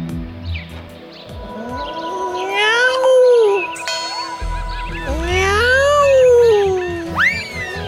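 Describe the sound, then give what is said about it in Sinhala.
A cat meowing loudly: two long, drawn-out wails that each rise and then fall in pitch, with fainter tones around them and a low hum starting partway through. “මේ පූසෙක් නේද අර කෑ ගහන්නේ? ඔව් නේද අම්මේ කොහේ ඉන්න පූසෙක් දෝය හරි මූසලයි පූසොහොම කෑ ගහනකොට”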